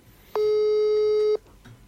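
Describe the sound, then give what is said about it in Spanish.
An outgoing phone call produces a single steady electronic ringing tone. It is mid-pitched and lasts about a second, sounding alone against a quiet background. “lo estoy llamando a Lito Ming, nuestro amigo K. Ming.”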